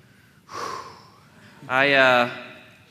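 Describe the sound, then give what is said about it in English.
A deep breath drawn in sharply, followed after a pause by a longer, louder voiced breath with a humming tone. “I take a step in, deep breath.”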